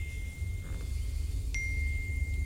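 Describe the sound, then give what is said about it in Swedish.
A phone's SMS notification chime sounds once partway through as a brief, bright ding whose high tone rings on, over a steady low rumbling background. “En telefon ger ifrån sig sms-signal efter sms-signal.”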